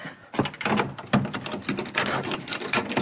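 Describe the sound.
A key turns in a house door lock, making a run of small metallic clicks and scraping rattles of uneven rhythm over about three seconds.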